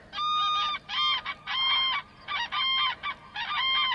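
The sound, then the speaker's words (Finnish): A flock of cranes calls while flying overhead: harsh, trumpeting honks that come in a run of overlapping bursts with short gaps between them, loud and steady against a quiet background. “Kurki aura lensi taivaalla. Ne matkasivat talvea pakoon kauas Afrikkaan, ehkäpä peräti Kiinaan asti.”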